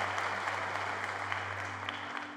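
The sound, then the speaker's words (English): A church audience applauds together in a steady, dense wash of clapping that holds at an even level throughout, with a low hum beneath it and no talking. “could you just applaud for the people in this room that are ready to make that decision?”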